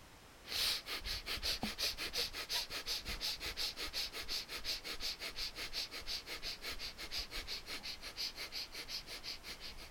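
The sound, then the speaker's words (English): Rapid, forceful breathing of the breath of fire yoga technique, with many short, sharp nasal pulses in a fast, steady rhythm that runs almost without a break, with no talking. “now let us do the breath of fire.”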